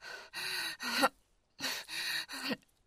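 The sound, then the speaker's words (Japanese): Ragged, uneven breathing: six loud, gasping breaths come in two groups of three with a short silence between them. “呼吸が乱れているみたいだな。”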